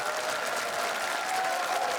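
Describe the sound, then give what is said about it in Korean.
Audience applause welcomes a child performer of pansori onto a Korean traditional music show. It is a steady, dense patter of many hands clapping at an even, moderate level with no break. “여러분의 큰 박수로 모셔보도록 하겠습니다.”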